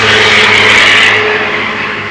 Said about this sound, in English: when you see a car skid on the road and goes like that